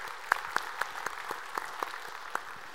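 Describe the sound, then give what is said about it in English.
Congregation applauding during a church service: faint, steady clapping with a few sharper claps standing out, heard alone without voices. “put your hands together and welcome those who are tuning into our service”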